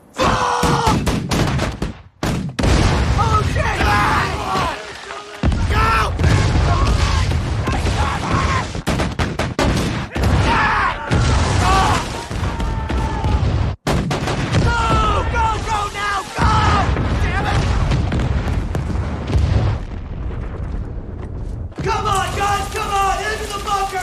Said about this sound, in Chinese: 报告，所有火炮已做好射击准备。 命令，向敌人阵地开炮。